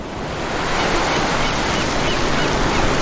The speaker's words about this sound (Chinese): 专家向我们解释，潮水从山门涌入，在北半球地转偏向力的作用下，潮水涨退时就会形成漩涡。